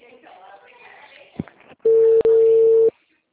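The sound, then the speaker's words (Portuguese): A steady telephone ringback tone sounds for about a second as an outgoing call is placed, briefly broken once near its start. It follows a short stretch of speech, and the line then goes quiet. “Vou fazer uma ligação.”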